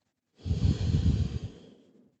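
One long, deep, relaxing breath, heard close and alone: a soft airy rush that builds quickly, holds for about a second, then trails off into silence.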